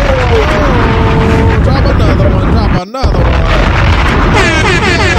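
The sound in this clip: A bomb-drop sound effect: a sudden brief dropout, then a heavy, deep boom, set within a dense, loud music bed.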